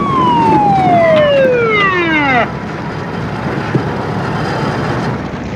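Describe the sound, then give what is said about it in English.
A police car siren sounds as the car drives up to a blazing house: one loud wail sliding steadily down in pitch, then cutting off abruptly and leaving a steady low rumble. “A red flashing light. A police car drives up to the house.”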